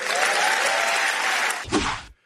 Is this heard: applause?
yes